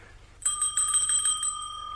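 A small hand bell is rung to summon a servant. A bright, rapid trill starts suddenly after a short silence and carries on steadily to the end, with no other sound.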